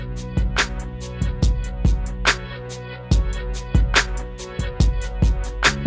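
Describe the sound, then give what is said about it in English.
A musical jingle signaling a commercial break, with a steady, driving beat of regular crisp percussive hits over sustained tonal chords, loud and continuous throughout. “there'll be a certain musical sound that lets you know a commercial comes. As a matter of fact, it sounds like this.”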